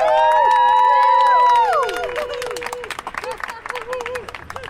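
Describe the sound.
An audience cheers and applauds a comedian at a stand-up show. Loud whoops and shouted cheers open over clapping, then the cheering drops away and dense applause carries on, a little quieter, to the end.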